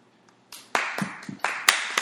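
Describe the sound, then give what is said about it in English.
Hands clap in appreciation at the end of a performance. The claps come as a run of sharp, crisp slaps at an uneven, loosening rhythm, fairly loud and with no voices over them. “I'm clapping for your finish.”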